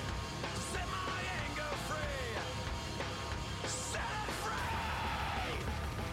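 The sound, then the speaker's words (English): Angry scream in a heavy, metal-style song, loud enough to overdrive the microphone; a harsh, distorted, noisy roar that stays loud and unbroken for about six seconds. “That wasn't a bad scream.”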